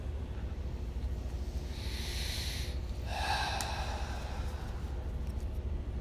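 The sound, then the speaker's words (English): Deep meditative breathing, drawn in through the nose and released through the mouth during a meditation class. Two soft, airy breath sounds rise over a low steady hiss, with no talking. “Taking three final deep breaths in through the nose, filling the body completely, and out through the mouth, releasing, relaxing.”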